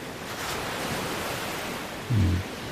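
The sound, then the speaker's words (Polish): Waves of the Sea of Japan washing in a continuous, broad hiss of surf at moderate level, with a short low rumble near the end and no voices. “Morze Japońskie, tutaj słyszymy, to już nie jest Bałtyk.”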